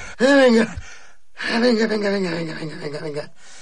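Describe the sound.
Panicked, voiced gasping breaths of a man buried alive: one short strained outburst, then a longer, wavering one after a brief pause.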